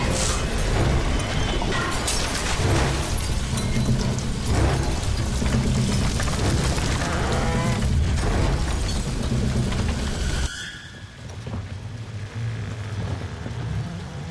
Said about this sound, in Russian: Огонь разбивает бутылочки, они взрываются. Устройство Маунуса горит.